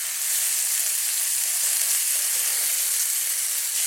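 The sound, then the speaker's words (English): Flour-dredged chicken cutlets sauté in pancetta and olive oil fat, giving off a loud, continuous, even sizzle that stays steady from start to finish. “And now we're sauteing them in the pancetta and olive oil fat.”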